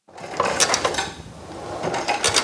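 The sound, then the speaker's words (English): A physical therapy exercise machine with a foot plate clatters as a teen lying down presses his feet against it during a therapy session. Irregular mechanical rattles and clicks repeat at moderate loudness. “His therapist tells him to do 20 reps on the machine.”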